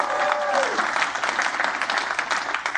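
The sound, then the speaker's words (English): Audience applause congratulates a student about to start college at Michigan State University, a dense, even clapping that holds steady for about three seconds at moderate loudness. “Why don't we give her big hands?”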